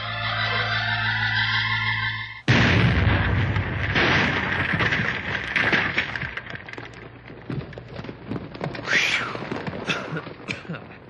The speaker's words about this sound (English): get all set up at the end on Tunnel B there. We'll blast as soon as you're ready.